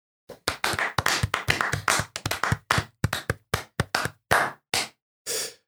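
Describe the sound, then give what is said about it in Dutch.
Hand clapping given as a little round of applause: many crisp, separate claps in an uneven rhythm that loosens toward the end into a few spaced claps. “een welgemeend applausje voor jou. Komt-ie aan.”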